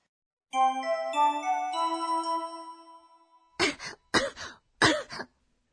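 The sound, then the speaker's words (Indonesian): Three short, raspy coughs from a patient with a cold at a hospital visit, evenly spaced. A sustained ringing chime tone sounds beforehand and fades out. “咳が出ます。”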